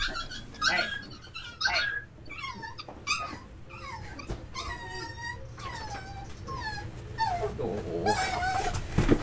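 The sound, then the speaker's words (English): A small pet dog whimpers and yips in many high, wavering whines, mixed with a few short growls and sharper yelps that rise and fall throughout. “Sorry, I had to. We had a little dog thing go on. That's my mom's dog.”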